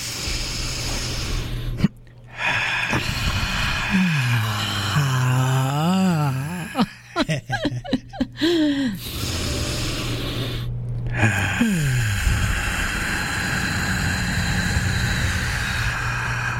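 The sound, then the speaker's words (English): Deep, loud breathing as a person inhales slowly during a guided breathing exercise; a long rushing breath noise with a few brief pauses, heard alone without talk. “And we're going to inhale on 3, 2, 1.”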